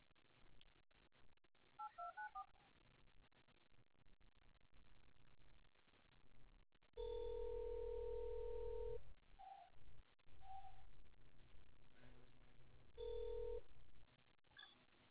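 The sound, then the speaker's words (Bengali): A telephone test call to a recently ported number: a quick run of keypad dialing tones, then repeated long, steady ringing tones separated by short gaps, with faint background noise between them. “দাঁড়া test call করে দেখি, port হয়ে গেছে মনে হচ্ছে নম্বরটা।”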